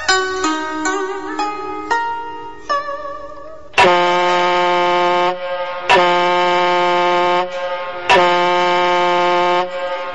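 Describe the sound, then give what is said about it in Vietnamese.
A ship's horn sounds long, deep, sustained blasts, three full ones evenly spaced and a fourth beginning, after a run of shorter stepped tones. “Mấy hồi còi tàu vang lên làm cho Tư Cầu”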